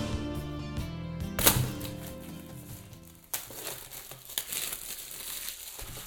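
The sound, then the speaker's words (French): Cellophane wrapping is pulled off a small cube-shaped HomePod Mini box, giving faint crackly crinkling and brief tearing rustles. Soft background music plays during the first half, and looser crinkles follow after it stops. “Alors, la boîte du HomePod Mini, déjà en elle-même, elle est vraiment toute petite. C'est un cube, une espèce de cube. Elle est emballée dans une espèce de cellophane qu'on va enlever, bien sûr.”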